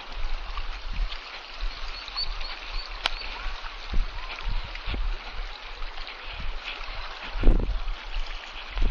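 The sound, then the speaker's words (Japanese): Flowing water of a stream makes a steady, broad rushing hiss that continues throughout, with a few faint knocks and ticks scattered across it. “水の音がいい”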